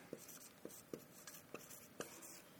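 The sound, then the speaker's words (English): Handwriting as notes are jotted down during a Bible lesson on Hosea: faint, rhythmic pen strokes, a handful of sharper scratches spaced evenly over a soft steady hiss. “And for my visual learners, I'm going to write a couple of them down that we see in this”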